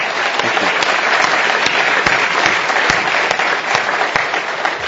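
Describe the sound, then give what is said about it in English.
Audience applause welcoming a speaker to the stage for a live conversation event: dense, steady clapping that stays loud and even for the full five seconds. “Let's give him a big warm welcome.”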